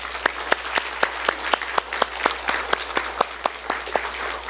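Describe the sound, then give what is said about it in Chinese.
Applause from a church audience thanking guest speakers, a steady clapping wash marked by sharp distinct claps in an even, regular rhythm throughout. “我们再一次用最热情的声音和这个掌声来谢谢他们。”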